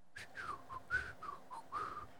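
A person whistles to imitate a sword flying through the air: a quick string of short, warbling whistled notes at a similar mid-high pitch, soft and heard alone.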